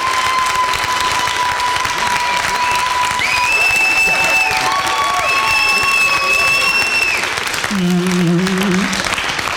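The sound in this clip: Crowd applause after a question at a live Q&A event: loud, dense clapping that holds steady for the whole stretch.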